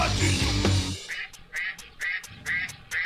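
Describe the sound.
Duck quacks in a children's dance song: music plays briefly, then a string of nasal quacks repeats in a steady, bouncy rhythm over a sparse beat.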